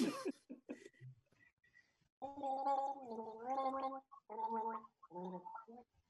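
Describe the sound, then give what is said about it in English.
A person gargles a tune, producing a bubbly, throaty melody in a few sustained phrases separated by short pauses, with brief sputtering vocal sounds just before the first phrase. “It's a very difficult one to gargle.”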